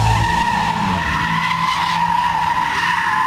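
Loud, continuous tire squeal from a car drifting in Gaziemir, İzmir, a sustained high screech with steady pitch throughout and no talk over it.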